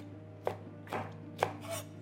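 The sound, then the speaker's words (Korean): Knife slicing green and red chili peppers diagonally on a cutting board as garnish for a beef and tofu hot pot: a few crisp, evenly spaced cuts, fairly faint, with no voices. “가니쉬로 사용할 청고추, 홍고추도 어슷 썰어줍니다.”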